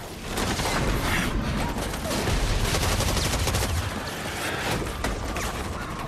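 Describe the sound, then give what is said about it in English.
Machine gun fire in a video game battle on a bleak urban battlefield: rapid, continuous automatic bursts form a loud, dense barrage that holds steady from start to finish. “He moves to take cover and shoots at a wave of advancing enemy.”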